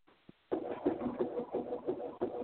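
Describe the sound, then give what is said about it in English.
A pet bird cooing in a soft, throaty run of repeated low pulses, preceded by a brief faint tick. “Don't want to be distracted by a roaming bird.”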